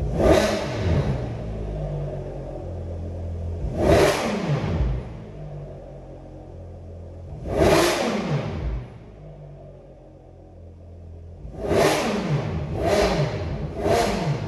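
Stock Ferrari 599 GTO V12 with factory six-into-one headers revving in a series of sharp blips. Each rises to a high snarl and falls back to a low rumble, the last three coming in quick succession.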